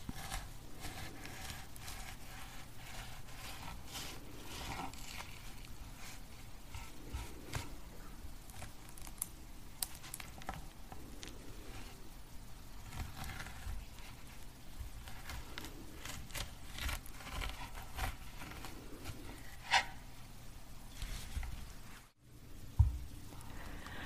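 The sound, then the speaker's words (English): An orange being peeled into small pieces for a fruit-filled pumpkin: faint, continuous soft tearing and moist squishing, with a couple of slightly sharper snaps near the end. “We'll be removing the orange peel, leaving just small pieces.”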